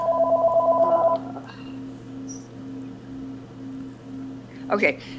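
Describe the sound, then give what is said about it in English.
A phone rings in the background with a warbling trill lasting about a second, while a low, soft beep pulses evenly throughout. “excuse my background phone there”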